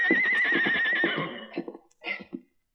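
A young colt neighs with a high, wavering whinny lasting about a second, which breaks into a few shorter, rougher snorting bursts before the sound stops.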